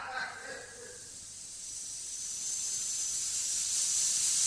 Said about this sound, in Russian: Он открыл баллон. Мы погибли. Ну, не сразу. Тихо. Делайте то, что я скажу. Газ уже режет мне глаза и дерет горло.